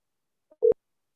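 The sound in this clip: A single short telephone line tone sounds after a number is dialed: one brief, steady mid-pitched beep, preceded by a faint tick, then silence.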